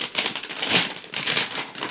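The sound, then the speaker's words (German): Gift wrapping paper fastened with plenty of sticky tape crinkles and rips as a present is torn open, a continuous crackling rustle with several louder bursts of paper noise. “Pack es doch einfach aus und quatsch nicht so viel. Nee, du. Wow, viel Tesafilm.”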